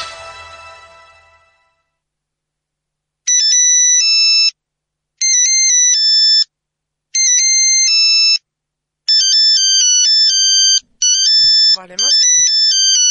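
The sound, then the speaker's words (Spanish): A 1980s-style phone ringtone plays as a high electronic melody in repeated short bursts separated by brief pauses, after a fading hiss at the start. “Suena el teléfono. Llaman nomás. Era un ringtone de los años 80.”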